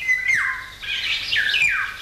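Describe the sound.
Birdsong: a bird sings a few bright, whistled phrases that each slide downward in pitch, fairly loud and clear over a faint background.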